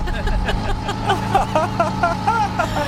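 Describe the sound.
A cargo moped's small engine, started with a hand crank, putters as the moped drives off: a low, uneven chugging rumble with a wavering higher tone riding on top, moderately loud throughout.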